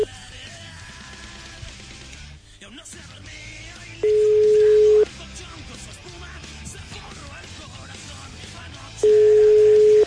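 Two long, steady telephone line tones, each about a second and separated by a gap, sound on a call that fails to connect, over a low, constant background hum.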